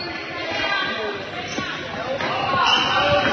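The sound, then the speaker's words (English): A basketball is dribbled on a court during a women's game. The bounces are faint and repeated under steady crowd noise and a voice talking. “Still dribbling, floating it to the near corner”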